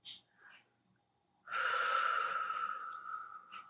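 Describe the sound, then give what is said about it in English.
A deep breath in, drawn slowly and steadily for about two seconds, preceded by a few faint short breathy sounds. It is soft and heard alone, with no talk. “So let us take a breath. Feel your lungs fill and recognize the receiving.”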